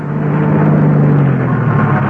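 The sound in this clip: A taxi car's engine runs throughout, a loud, steady droning hum with a constant low tone and no clear change in pitch.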